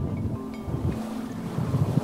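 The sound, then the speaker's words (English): A boat cruises across Old Fort Bay with a low engine rumble. Wind buffets the microphone and water washes alongside, with a few brief knocks along the way. “The best view, however, comes by circling it in a boat.”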